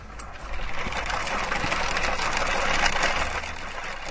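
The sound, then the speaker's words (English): Wool being spun on a simple spinning wheel in northern Afghanistan gives a steady, fairly loud mechanical whir with a rough, rattling texture. It runs unbroken for about four seconds with no voices. “The simple spinning wheel, relegated to fairy tale in Western civilization, has the air of a magical contraption.”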